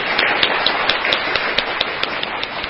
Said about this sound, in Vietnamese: Chúng ta vỗ tay chào mừng các Phật tử đến đây lần đầu tiên.